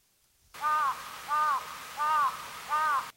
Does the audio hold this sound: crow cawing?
yes